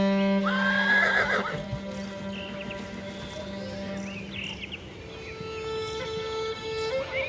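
Sustained bowed tones from a Mongolian horsehair-stringed fiddle with a trapezoidal wooden body, rich in harmonics, with gliding whinny-like phrases and a low drone, played alone at steady moderate loudness.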